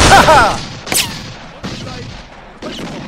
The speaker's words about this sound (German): Na, dann schießen die mal schön weiter.